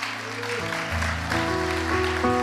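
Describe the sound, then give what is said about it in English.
A church audience claps to welcome guests during a Sunday morning service, steady dense applause running throughout beneath sustained keyboard chords. “And church, I'd like to put your hands together as we welcome Anna and Nam this morning.”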